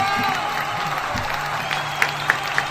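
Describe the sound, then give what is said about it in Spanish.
People applaud and cheer at a lively gathering with a rock band while a photo is taken. The clapping is steady and thick, with a few sharper claps standing out near the end. “Vamos a sacar una foto mientras la gente aplaude.”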